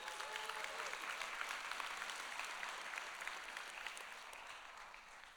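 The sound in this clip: Audience applause welcoming a student to the stage: steady, dense clapping from a crowd that tapers off slightly toward the end.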